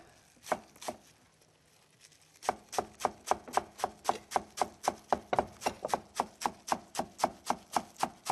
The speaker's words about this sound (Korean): 부추는 이런 조선 부추 같은 거 많이 쓰고요. 예. 호부추 쓰는 경우도 있긴 합니다. 겨울철에는. 네. 그래서 이거를 절반 가르고 그래서 자잘하게 썰어 주시면 되겠고요.